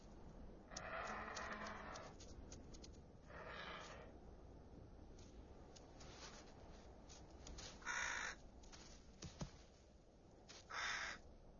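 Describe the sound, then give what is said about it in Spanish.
Ravens caw in Navarra, where they trail bearded vultures for scraps of food. A few harsh, rasping calls come in separate bursts over a low, steady background hiss, with no talk. “Los cuervos también están por la zona y siguen minuciosamente los pasos de los quebrantahuesos, con tal de conseguir un poco de comida.”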